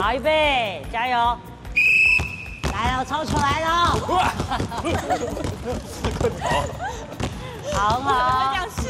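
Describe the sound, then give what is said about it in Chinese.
A basketball bounces on a court during a dribbling drill, with many quick thumps under constant talk and shouting, and a sharp whistle blast early on. “我们下午因为要比赛， 是， 所以我们刚才练了运球。”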